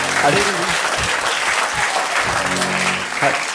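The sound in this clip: Applause from a live audience at a German stage show, dense and steady clapping that fills the whole stretch, with voices talking over it.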